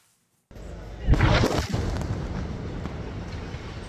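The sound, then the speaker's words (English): An airstrike destroying a house in Al-Nusirat camp, central Gaza: after brief silence a roar begins abruptly, then a heavy boom hits and gives way to a long, loud rumbling that slowly eases. “A separate strike targeted a house in Al-Nusirat camp in central Gaza. This video shows the moment the home was destroyed, followed by thick dust spreading across the city's market.”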